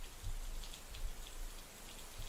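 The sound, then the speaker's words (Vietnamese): Heavy seasonal rain falls without a break, a dense, steady hiss with soft low thuds mixed in and no thunder. “Cảm giác như là hình như mưa còn to hơn.”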